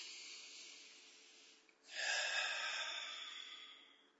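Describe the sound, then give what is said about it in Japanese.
One deep breath taken before a task: a soft, airy intake after a brief quiet moment, then a long breathy rush that slowly trails off. “最後です。深呼吸しますか。”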